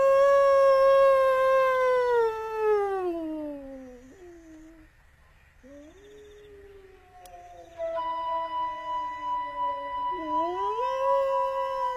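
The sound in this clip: Wolf howling: long, clear, tonal howls that slide downward in pitch and trail off, then a second voice of howls enters and swells upward, loud against a quiet background.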